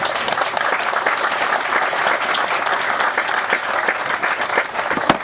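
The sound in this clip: Audience applause for a comedian: a steady, dense wash of many hands clapping at an even, loud level, with a few sharper claps standing out near the end.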